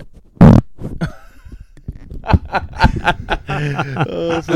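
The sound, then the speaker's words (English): A short, loud, low fart blasted directly into a microphone, a sudden buzzy burst, followed by snickering, chuckling and some voices. “farted directly into the microphone”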